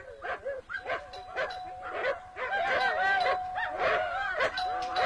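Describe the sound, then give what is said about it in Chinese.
Two big wolf-dogs bark fiercely at a villa door, many rough, overlapping barks in a continuous stream, with a steady electronic doorbell tone held underneath. “这家主人难道耳朵聋啊？狗叫得这么凶，门铃这么响，怎么还不来开门？”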